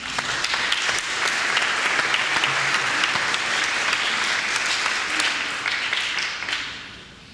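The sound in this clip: An audience applauds to welcome two speakers coming forward: dense, even clapping that holds strong for several seconds, then tapers off and fades near the end.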